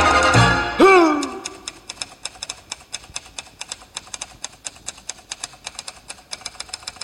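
Typewriter keys clack in a brisk, steady rhythm, many sharp strokes in a row, each a crisp mechanical tap at even volume.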